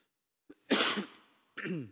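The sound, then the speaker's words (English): A few harsh coughs mixed with throat-clearing: one short burst, then two longer rasping ones, heard alone with no talk. “Excuse me for coughing. I apologize.”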